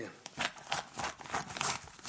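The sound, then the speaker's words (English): Scissors cut a hole in a newspaper, giving faint papery snips and crinkles in an uneven series of short bursts with soft rustling between them. “cutting a big hole in me newspaper”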